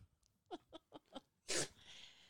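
A dog sneezes: a quick run of four short snuffling sniffs, then one loud, sharp, breathy sneeze burst that trails off into a faint rustle.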